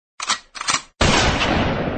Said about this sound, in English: That's music. That's music to my ears. Can I hear another one of those shotgun blasts right here?